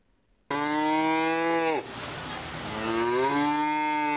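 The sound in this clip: Cattle moo in the beef barn at the Adams County Fair in central Nebraska during 4-H cattle shows. Long, loud, deep calls sound alone: the first drops in pitch at its end, and a second bellow rises afterward.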